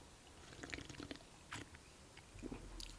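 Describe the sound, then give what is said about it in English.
Faint mouth and sipping sounds from someone drinking Vimto Zero: a few soft, wet slurps and clicks, quiet and close, with no talk. “A nice sip of tea you just had there. Sorry, it was ASMR. It was Vimto Zero. Hold on, I'll do it again.”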